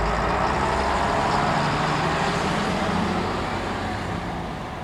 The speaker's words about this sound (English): Jetzt hast du den Bus, den du wolltest.